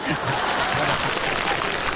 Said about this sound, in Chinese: 我瞧谁敢鼓掌？ 您甭喊我，我盯着呢。 您别鼓掌啊！